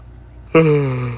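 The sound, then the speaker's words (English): A person yawns: a sudden, loud voiced exhale whose pitch slides gradually downward as it slowly fades. “Yawn, sorry guys.”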